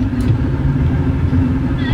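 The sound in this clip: Cars and motorbikes idling and creeping through congested street traffic, with vehicles parked along both sides of the road. A steady, dense low rumble and hum holds through the whole clip with no distinct separate events.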